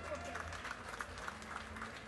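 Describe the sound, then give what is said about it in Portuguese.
Applause at a municipal ceremony: a faint, even patter of clapping throughout, mixed with crowd voices. “Salva de palmas.”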